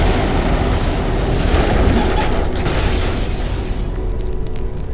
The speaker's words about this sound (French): Le 12 septembre, après avoir été vidés de leurs passagers, les appareils sont pulvérisés.